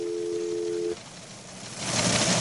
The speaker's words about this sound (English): that's a dial tone.